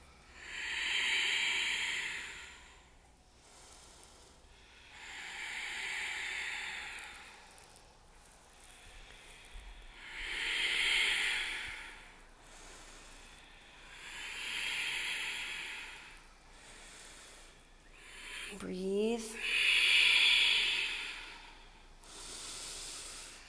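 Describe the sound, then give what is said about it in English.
Slow, deliberate breathing in a heated yoga class: five broad, airy, hissing breaths about every five seconds, with softer breaths between them. “Breath gets really intentional, the heat builds.”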